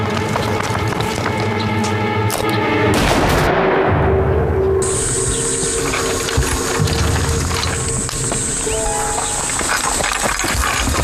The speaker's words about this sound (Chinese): 二当家，徐家大院响枪了。 听到了。